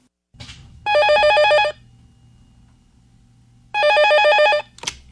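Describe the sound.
A telephone bell rings twice before it is answered: two long, bright trilling rings about two seconds apart, with short clicks at the start and the end.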